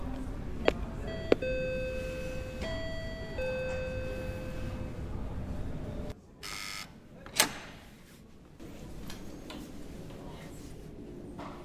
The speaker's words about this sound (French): on va rentrer dans, dans, dans la librairie. Il faut, il faut d'abord sonner.